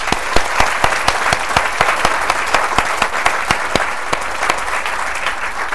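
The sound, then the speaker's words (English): Audience applause at a book reading, welcoming the author before he reads a passage; distinct, crisp claps in a steady, fairly regular pattern, sustained throughout at moderate loudness. “Would you please welcome Alexander Masters?”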